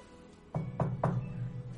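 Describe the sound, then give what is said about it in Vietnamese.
Three evenly spaced, dull knocks on a door, close together over a low, steady background hum. “Một tiếng gõ cửa vang lên khiến cho Đường Bắc Vi”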